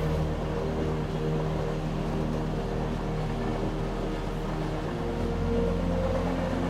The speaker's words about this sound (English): As the engine picks up and the carriage vibrates, the train moves on.